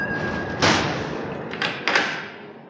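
A window being shut against a loud, steady roar of noise in New York: one heavy thump, then two softer knocks, with the roar fading somewhat afterward.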